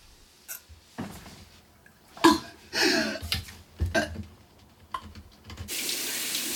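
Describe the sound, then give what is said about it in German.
Tap water runs into a bathroom sink as a woman washes her face. Scattered short, soft sounds come first, then a steady, loud rush of running water fills the end. “Sie steht am Waschbecken und benetzt sich das Gesicht.”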